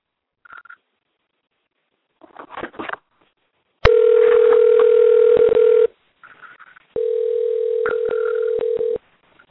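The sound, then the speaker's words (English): A telephone dials out, with short clicks followed by two long, steady ringing tones separated by a brief pause. “Should be dialing now.”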